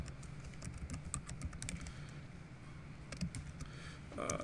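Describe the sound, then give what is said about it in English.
Soft, rapid keystrokes tap on a computer keyboard as a demo is typed during a database backup class. They come in bursts, with a short lull in the middle. “I'm gonna break Buck's golden rule and type in a demo and hope I remember what this is.”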